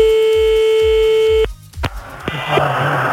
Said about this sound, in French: C'est parti, on appelle.